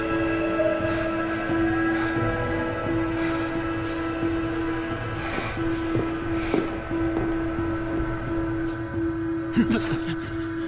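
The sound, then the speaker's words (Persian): A train departs after its doors close: a steady, humming drone with a low rumble runs for about ten seconds, with a few faint clicks and knocks toward the end. “اون مرد سوار قطار شده، در بسته است، قطار میره.”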